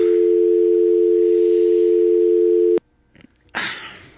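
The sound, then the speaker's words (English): A telephone dial tone holds loud and steady for nearly three seconds before dialing, then cuts off abruptly, leaving a few faint clicks and a short rush of noise. “Okay, let's dial.”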